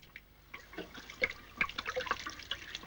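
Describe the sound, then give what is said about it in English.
Whiskey pours from a bottle down a kitchen sink, heard as faint, irregular splashing and gurgling of liquid, with scattered drips that grow busier midway and continue to the end. “He pulls out the cork and tips the whiskey down the sink as Don and Helen slowly walk over to him.”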